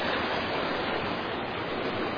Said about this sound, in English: That's the only bridge that has not got water hitting. Well, it hits on both ends. It's actually hitting it.